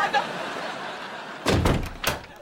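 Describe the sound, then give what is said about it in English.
A door is pushed shut, giving a heavy thud with a short rattle, followed moments later by a second sharp knock-like thump, both loud against a quiet background. “Why'd you close the door?”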